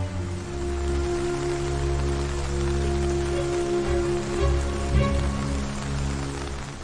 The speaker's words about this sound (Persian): داره بارون میاد، بهتر زودتر بریم امارات.